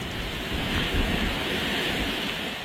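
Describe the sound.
Wind and surf from a Category 1 hurricane brushing the southern tip of Hawaii's Big Island, a dense, unbroken roar that stays loud and even throughout with no voices.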